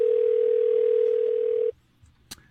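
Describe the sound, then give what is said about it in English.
A telephone dial tone hums at one steady pitch for under two seconds while someone dials, then cuts off abruptly; a faint click follows shortly after. “Are you dialing correctly? Are you pushing the numbers hard?”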